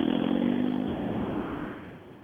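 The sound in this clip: A car pulls away on new tyres, its engine giving a steady low droning tone that holds briefly and then fades.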